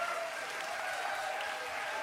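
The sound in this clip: Audience applause for an antifascist hardcore band, a faint, continuous wash of clapping that stays level throughout.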